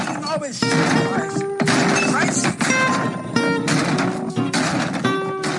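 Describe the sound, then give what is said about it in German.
A table is smashed to pieces on a game-show stage. Several loud crashing, shattering blows come in uneven succession, with voices talking between the impacts. “Und deswegen mache ich jetzt hier diesen Tisch mal kaputt, ja?”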